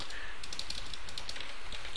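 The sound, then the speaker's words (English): Typing on a computer keyboard: a quick, uneven stream of light clicks over a constant hiss for two seconds. “Sorry about my dumb typing.”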